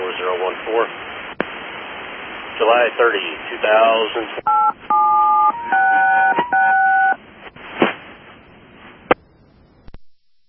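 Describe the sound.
A rapid series of DTMF touch-tone beeps dials up over a railroad two-way radio channel. The steady paired tones follow narrowband radio voice chatter, and more hiss and a sharp click come after them.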